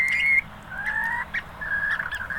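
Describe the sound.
Bird calls: a few clear, high whistled notes, mostly flat and sustained, with a couple of brief, sharp accents between them, heard alone without talk.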